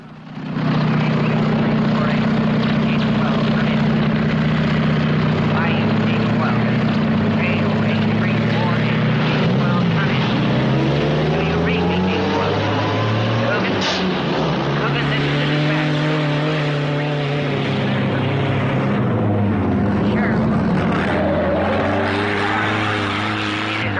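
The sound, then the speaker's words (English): A jeep drives past on a bumpy, dusty dirt track, its engine a loud, continuous rough drone that lasts the whole time, with the motor's pitch wavering and shifting midway before settling again. “The square-jawed deputy, whose name is Coogan, scans the ground as he passes by in a cloud of dust kicked up by the jeep's wheels.”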